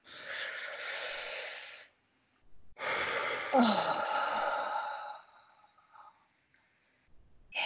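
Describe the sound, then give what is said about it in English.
People taking a deep breath together: two long breathy rushes of air separated by a brief pause, the second fading into soft trailing breath, with no speech. “on the count of three, let's take a deep breath. One, two, three.”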